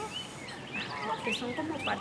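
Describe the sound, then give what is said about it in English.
Many ducks calling in a park, with short, overlapping nasal calls rising out of steady background noise and growing busier in the second half. “The ducks, there are a lot of ducks.”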